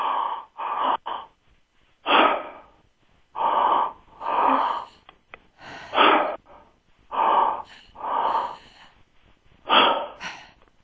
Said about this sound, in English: with muscular action, you move the breath up to the midsection, up to the solar plexus. So it would be two steps. It would sound like.